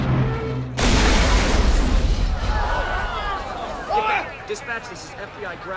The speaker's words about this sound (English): a fireball blossoms through the bottom of the aircraft's nose.